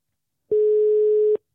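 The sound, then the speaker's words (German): One steady telephone ringing tone during an outgoing call, a single flat beep of unchanging pitch lasting under a second, loud and clean, with silence before and after and no voices. “Dann drück doch nochmal drauf, dann rufst du ihn wieder an.”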